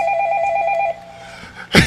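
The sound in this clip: A telephone rings once with a steady electronic ring lasting about a second, then falls quiet before a short noisy burst near the end.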